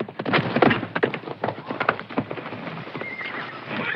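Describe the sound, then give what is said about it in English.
A horse gallops into a corral, its rapid, loud hoofbeats thudding in an uneven rhythm on hard ground, with a high whinny rising near the end. “Wyatt gallops into the Wells Fargo Corral, and a team of men quickly surround him.”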